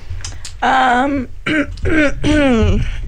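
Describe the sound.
Throat clearing, heard as a few short, rough voiced bursts spaced over about two seconds, each rasping and throaty at a moderate level, with no words spoken.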